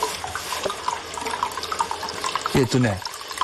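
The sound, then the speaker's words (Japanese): Lukewarm, slightly thick hot-spring source water flows freely into a foot bath with a steady, broad splashing rush. A voice speaks briefly near the end. “はい、じゃあ足湯をやります。”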